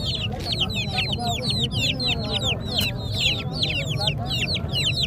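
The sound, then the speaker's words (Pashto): Wild fowl and free-range chickens at a Friday market in Tarinkot cluck and chirp in rapid, overlapping high calls. The calls sit over a dense, low crowd murmur. “دا بیا صحرایي مرغان دي چې د پسرلي د موسم په راتګ سره یې په شمیر کې زیاتوالی هم راځي”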